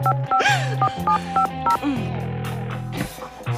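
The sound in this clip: Telephone keypad tones as a number is dialed on a phone handset: a quick series of short, clear beeps, followed by a longer steady tone.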